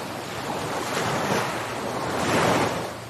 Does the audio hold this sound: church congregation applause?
no

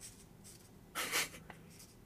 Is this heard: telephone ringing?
no

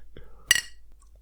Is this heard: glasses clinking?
yes

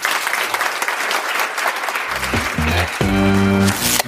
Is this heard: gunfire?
no

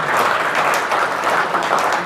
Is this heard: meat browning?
no

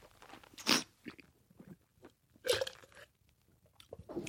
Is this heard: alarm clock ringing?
no

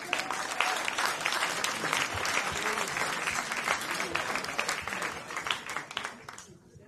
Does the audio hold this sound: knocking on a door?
no

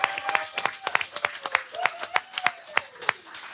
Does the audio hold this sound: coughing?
no

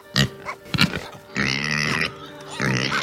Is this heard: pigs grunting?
yes

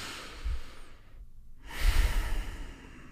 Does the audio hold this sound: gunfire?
no

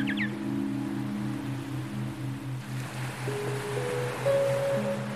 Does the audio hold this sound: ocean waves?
yes

